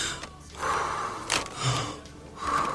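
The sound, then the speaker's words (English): Panicked gasping breaths, a few quick, ragged inhalations and exhalations in uneven bursts, faint and breathy, with one sharp gasp standing out in the middle and no speech over them. “Just calm down. Okay. Oh, okay. Just breathe. Calm down. In and out. In and out. Just breathe.”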